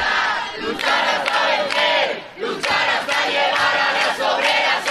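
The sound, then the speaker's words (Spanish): A protest crowd fills the streets of Madrid with massed shouting and chanting, loud and sustained, the voices surging in repeated waves separated by brief lulls. “El sonido ahora mismo en las calles de Madrid.”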